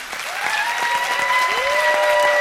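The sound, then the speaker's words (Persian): Applause in a classroom as a group claps for a classmate during a lesson: steady, dense clapping throughout, with a couple of drawn-out whistles rising over it. “نه دیگه الان یه تشویقش کنین حالش خوب بشه.”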